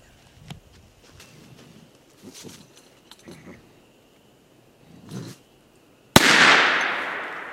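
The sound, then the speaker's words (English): A single loud gunshot from a raccoon hunt cracks out sharply and trails off in a long decaying rumble, after several faint rustles and soft footfall-like thumps. “All right, we just got to our second spot. Dad just shot the coon and we took it out.”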